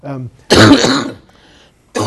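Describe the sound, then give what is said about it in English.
A cough from a person with a bad cough after long-haul flights: a short voiced sound, then one loud, harsh, broad burst, with another burst starting at the very end. “I have a bad cough.”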